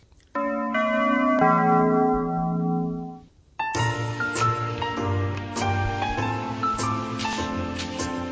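Bells ringing as a cue for a history-questions round: a sustained chime fades out, a brief silence follows, then a busier run of repeated bell strikes rings on, with no talk over it.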